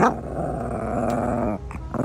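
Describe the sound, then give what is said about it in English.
A dog growls in a low, continuous rumble that holds steady for over a second, then breaks off into a few short, rough bursts. “I am here with my rotten dog, Mabel.”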